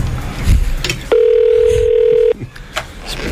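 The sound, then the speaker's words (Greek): A telephone call rings out while waiting for someone to answer: one steady ring tone lasting just over a second, with people talking before and after it. “Ρε, θα το σηκώσει κανείς το τηλέφωνο, ρε!”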